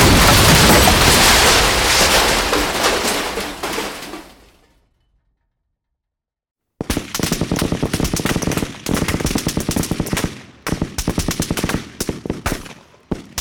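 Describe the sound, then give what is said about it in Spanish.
A bomb goes off at a grand hotel with a loud, broad roar that slowly decays over about four seconds into silence. A dense stretch of rapid, crackling bursts follows. “Central, tenemos un código 254. Una bomba del Gran Hotel. Pido refuerzos.”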